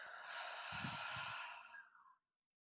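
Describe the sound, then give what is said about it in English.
A single deep breath in and out during a guided belly-breathing exercise, heard as a soft, airy rush that lasts about two seconds before fading to silence. “Let's take 3 breaths together. Everyone in. And out.”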